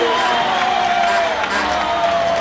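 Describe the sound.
A crowd cheers and shouts hurrahs for the winner crossing the finish line of a race. The roar is loud and unbroken, with some high voices standing out above it.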